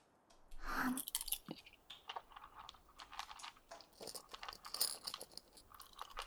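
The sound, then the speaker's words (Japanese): Small blue carbonated candies crackle and pop in the mouth as they are rolled on the tongue. A faint burst of crisp pops is followed by many scattered tiny crackles, with no talking. “こんな感じで口に含んで舌で転がすんだよ。ヒャラヒャラとなりながらほんのり炭酸の味がしてきて”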